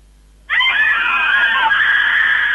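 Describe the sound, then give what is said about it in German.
Hysterical women scream together as a door is opened, a loud, shrill and continuous wall of overlapping high-pitched voices that bursts in suddenly and holds without a break. “wenn ich die Tür aufmache, brüllen die mir entgegen, vollkommen hysterisch. Soll ich mal die Tür aufmachen?”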